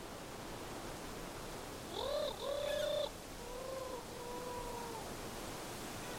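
A turtle dove coos at Roche Percée in two soft, low tonal phrases, the first a little louder with faint higher overtones, over a steady background hiss.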